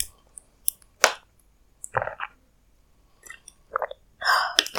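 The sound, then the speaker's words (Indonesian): Someone drinks a beverage, producing a few short wet gulps and clicks of swallowing spaced irregularly, ending in a louder breathy exhale. “Tuh, aku minum kayak suara aku udah mulai serak.”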